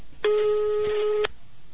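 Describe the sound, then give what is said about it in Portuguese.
Telephone ringback tone while a call is being placed: a single steady, mid-pitched beep lasting about one second. It is clear and fairly loud over faint background noise. “E agora vamos ligar para o Carlos.”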